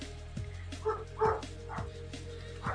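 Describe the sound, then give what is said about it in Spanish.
Dogs barking in a few short, mid-pitched yips over a steady low hum, with no talk. “Perros, ¿de quién son los perros?”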